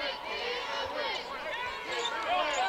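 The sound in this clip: A basketball is dribbled on the court during a game, its soft repeated bounces heard under a commentator's running talk and crowd noise.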